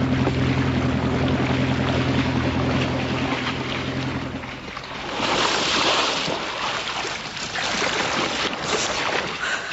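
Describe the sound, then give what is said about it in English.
A motor launch turning around on the water: a steady low engine drone for the first half gives way to a broad, rushing wash of water and wind. “Turn the launch around.”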